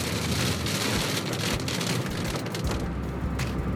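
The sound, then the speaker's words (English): Heavy rain pouring down while travelling a road: a loud, continuous, dense hiss of downpour that stays steady throughout, with no voices. “It's raining pretty hard now. Seems like every time I'm traveling this road lately, it's pouring down rain.”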